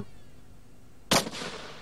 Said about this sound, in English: And now it's shooting 1 million rounds per minute. But only so 180 rounds.